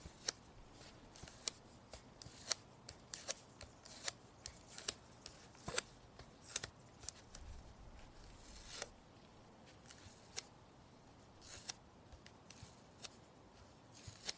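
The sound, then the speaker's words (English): Faint scissors snipping a nail, many small sharp clicks and crisp cuts in an irregular rhythm over a quiet background. “I just cut my nail.”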